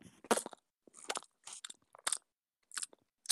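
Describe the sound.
Crunchy bites into a creamsicle ice cream bar: several sharp, crisp crunches in separate bursts with short pauses between, loud and close, with no talking.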